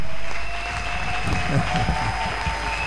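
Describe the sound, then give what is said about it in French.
Church audience cheering and applauding in praise of God, a continuous roar of clapping and raised voices over steady sustained tones, with talk running beneath it. “Est-ce que nous pouvons acclamer pour ce Dieu?”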